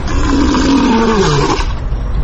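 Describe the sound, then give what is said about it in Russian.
A lion roars at a zoo: one loud, sustained, low growling roar that fills the whole clip with a deep rumbling tone. “Львы.”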